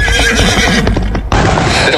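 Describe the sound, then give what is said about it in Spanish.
Loose horses neigh in loud, shrill whinnies over dense background noise, with a brief dip midway before the calls continue. “Se soltaron los caballos.”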